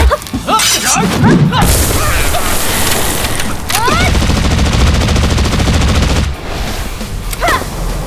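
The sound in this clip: Gunfire from a gun in a video game: loud, rapid bursts of shots with sharp cracks and booming blasts, broken by a few brief pauses and heavy throughout.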